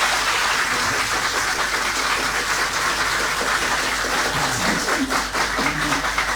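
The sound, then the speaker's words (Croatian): A studio audience at a concert in the large studio of Radio Osijek applauds. Steady, dense clapping holds at an even level throughout without breaks. “pozdravimo naše slušatelje koji su s nama uz radijske prijemnike dlanovima.”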